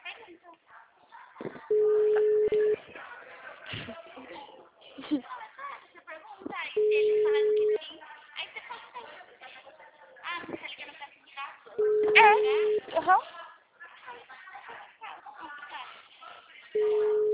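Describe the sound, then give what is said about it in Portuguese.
A telephone line tone sounds during a call to a city hall: four steady, mid-pitched beeps, each about a second long and spaced several seconds apart. A person talks in the gaps between them. “Eu tô ligando pra prefeitura pra perguntar se eles têm o FGTS.”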